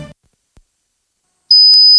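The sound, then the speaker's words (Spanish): High-pitched electronic tone imitating ringing in the ears, a single piercing whine that cuts in abruptly after near silence and holds steady and loud to the end. “Es molesto, ¿verdad? ¿Te imaginas oírlo cada noche? Sonofin te puede ayudar porque Sonofin con ginkgo biloba y melatonina reduce los pitidos y te ayuda a dormir.”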